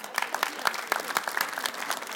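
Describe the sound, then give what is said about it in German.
Applause from an audience at a talk by a writer: dense, even clapping that holds a fast crackling texture throughout, steady and fairly faint, with no clear voices. “Applaus.”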